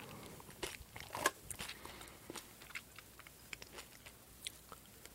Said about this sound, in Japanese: ポテロングうまいな。